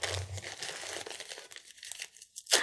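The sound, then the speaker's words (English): A disposable diaper crinkling as it is pulled up and taped, giving steady papery-plastic rustling that thins out midway, then a brief, sharp tearing burst at the end. “Okay, now we can pull your diaper up. I need you to lay still for me, okay? Can you count the tapes?”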